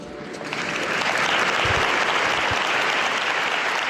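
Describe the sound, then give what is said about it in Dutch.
Applause from an audience after a Spanish-language religious address, a dense, steady wash of clapping that builds in the first half second and then holds at an even, full level to the end. “En dus een begroeting aan de Spaanstaligen, die toch moeten applaudisseren, dat hoort er eenmaal bij.”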